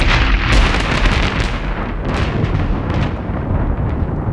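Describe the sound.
Lightning strike sound effect, portraying a bolt hitting a man at a building site on an afternoon of changeable weather: a loud, sustained rumbling crash with crackling bursts that slowly fades.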